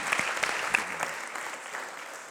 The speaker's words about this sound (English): So will you give Pastor Mike Sains a big welcome as he comes tonight?